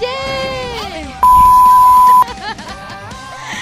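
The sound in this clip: A censorship bleep, one steady high-pitched tone about a second long, cuts sharply into lively Spanish-language radio talk, and the voices carry on around it.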